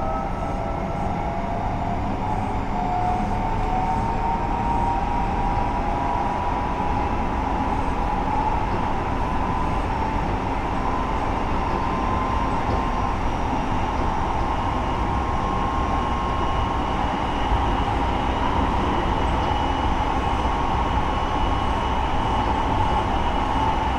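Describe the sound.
The steady, unbroken rumble of a train running on rails, an even roar with a sustained whining tone running through it.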